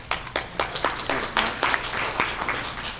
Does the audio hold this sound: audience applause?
yes